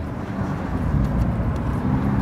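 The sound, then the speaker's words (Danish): A car drives steadily at a little over 40 km/h, giving a continuous low engine and road rumble with a light hiss above it and no talk. “Altså, lige nu kører vi sådan lidt over 40 km i timen.”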